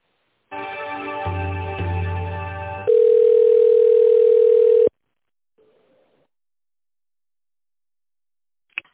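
Telephone line tones while an office call is transferred to an extension: a buzzing multi-tone signal, then a steady single tone for about two seconds, followed by near silence.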